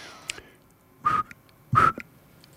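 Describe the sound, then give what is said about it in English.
Whistle imitating the call of a saw-whet owl: two clear, breathy whistled toots at a steady mid-high pitch with a pause between them, after a faint brief blip and otherwise near silence. “And that is the call of the saw-whet owl. It sounds a bit like this.”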